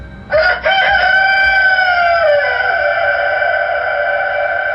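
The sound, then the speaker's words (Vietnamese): A caged rooster crows loudly after its cage is slapped, in a mountain gorge above water. A couple of quick opening bursts lead into one long, sustained, strained crow that gradually tails off, with no voices. “Anh ta vội vỗ mạnh vào lồng gà sau lưng, gà nộ tình lập tức cất tiếng gáy vàng, âm thanh dội xuống mặt nước.”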